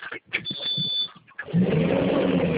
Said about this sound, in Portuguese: No momento eu não posso ver, não, porque eu tô em cima de uma empilhadeira dirigindo.